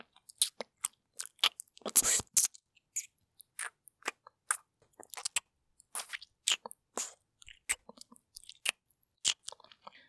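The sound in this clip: Wet, smacking deep-kissing sounds: many short, clicky mouth noises in an irregular rhythm, fairly quiet, with no talking.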